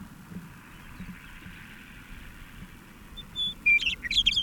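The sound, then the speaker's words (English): Polished, well-formed bird song: a few short, high, bright chirps and whistled notes that arrive only in the final second or so over a quiet hiss. “This is the same bird with a much more polished sound.”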